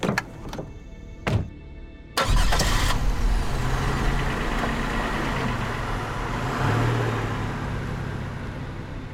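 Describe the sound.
A car driving out of town along the west road toward a farm, played as an effect in a tabletop role-playing game: a few sharp clicks, then a sudden loud engine roar that holds steady with a deep rumble, without any talk.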